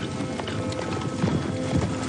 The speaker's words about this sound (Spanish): Ya llega la caballería. Los agentes de la ley se aproximan al galope.